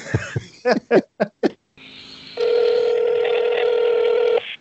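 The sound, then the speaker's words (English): Steady telephone tones as a phone is dialed for a live on-air call, sustained for a few seconds after brief bursts of laughter at the start. “I'm going to call him live on air, live on air phone call. See if we can wake him up.”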